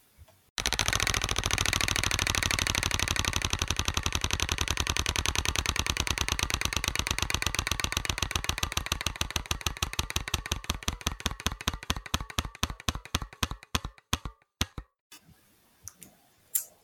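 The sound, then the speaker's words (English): Ratcheting clicks of a prize wheel spun to pick a card in a game, starting as a rapid, dense clatter that gradually slows, the clicks spreading farther apart until the wheel stops after about fifteen seconds. “All right, spinning the wheel again. Here we go.”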